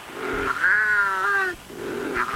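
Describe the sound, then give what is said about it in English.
Wildcat, Britain's only native wild cat, calling: a drawn-out, harmonic yowl that sags slightly in pitch, framed by lower moaning growls before and after, loud with no voices. “efforts to revive the only native cat still found in the wild in Britain.”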